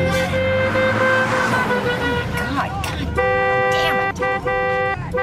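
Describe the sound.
A car horn honks in traffic, a loud, sustained, brassy tone that breaks into shorter pulsing blasts near the end, with voices speaking over it.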